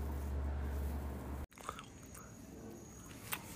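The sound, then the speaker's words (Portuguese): A person chews while eating, with faint biting and soft crunching. A low steady hum drops out abruptly partway through, leaving quiet, irregular mouth sounds with a few sharper crunches. “Primeiramente eu tô comendo, certo?”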